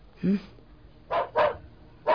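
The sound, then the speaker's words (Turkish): Dogs barking in a radio drama: a few short, sharp barks spread over about two seconds, the first lower and softer, the later ones brighter and closer together, separated by quiet gaps. “Hey! Köpeklere dikkat edin. Tutun şunları.”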